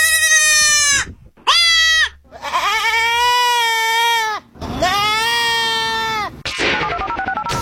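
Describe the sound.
A baby goat and a mother goat bleat loudly several times. The strained, quavering calls vary in length, some clipped and some drawn out, and end in a rougher, noisier call.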